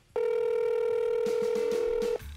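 A telephone tone as a call is placed to a shop: a single steady electronic hum, loud and unbroken for about two seconds, heard alone.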